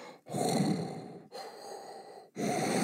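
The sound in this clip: A voice imitates the heavy, raspy breathing of a masked killer from a horror film: three long, drawn-out breaths with short pauses between them, fairly faint and without speech.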